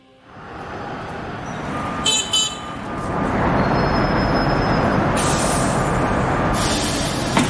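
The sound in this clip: A tram pulling away from a stop: a broad rolling rumble that builds as it starts moving and then holds steady and loud, with brief high squeals from the wheels along the way.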